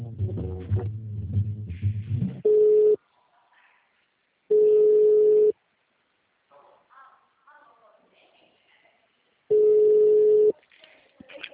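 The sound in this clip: Telephone tone after a dropped call: three loud, steady mid-pitched tone pulses, each about half a second to a second long, separated by quiet gaps with faint scattered noise.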